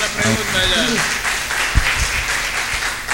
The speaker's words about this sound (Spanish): Vamos a darle un aplauso a los hermanos.